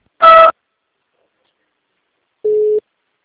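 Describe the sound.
Telephone line tones play while a call is transferred to an agent: two short beeps separated by a long silence. The first is brighter and buzzier, the second lower and purer, and there is no talk.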